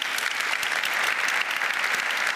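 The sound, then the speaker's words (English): Audience applause in a conference venue as the event closes: thick, continuous clapping from many hands, even in loudness throughout the short burst, with no voices over it. “Thank you. Your applause first.”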